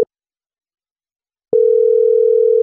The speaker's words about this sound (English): So right now we'll just dial the number and. All right. So we're calling him.